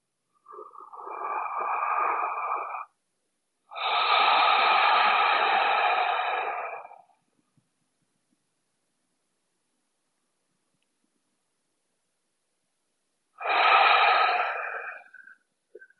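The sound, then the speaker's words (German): Three long, strong breaths drawn through the nose while smelling a scent on the wrists. The breaths are separated by silence, with a longer pause before the last one. “Also, dann lass uns drei bewusste Atemzüge nehmen. Nimm deine Hände, deine Handgelenke zur Nase und atme diesen Duft ein für dich.”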